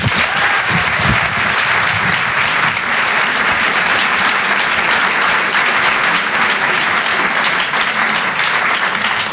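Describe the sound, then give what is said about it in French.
A comedy-show audience applauds as a comedian is welcomed on stage. The clapping is loud, dense and continuous, holding at an even level for about nine seconds without breaks. “Faites du bruit s'il vous plaît pour Victor Jesquière.”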